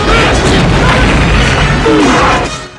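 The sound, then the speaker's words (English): Explosions erupt around a guarded camp in a Rambo action film, a loud, dense, continuous rumbling crash of blasts that holds steady throughout before tailing off at the very end. “Rambo takes out more guards as explosions erupt around the camp.”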